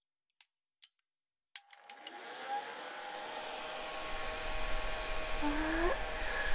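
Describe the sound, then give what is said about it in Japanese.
A hair dryer drying hair: a couple of sharp clicks, then it switches on into a steady, loud, breathy roar that holds to the end. “軽く乾かしますね。”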